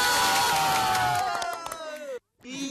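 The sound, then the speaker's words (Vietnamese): Crowd of people cheering and shouting in a loud, continuous burst of voices, which cuts off into a brief silence before the cheering resumes. “Thế thì chúng em xin nhiệt liệt hoan hô các anh một lần nữa. Nào, hoan hô.”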